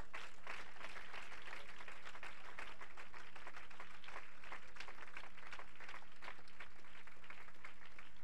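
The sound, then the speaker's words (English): A church audience claps their hands in praise, a sustained, fairly faint wash of clapping that runs throughout over a low steady hum. “Clap your hands and give the Lord praise.”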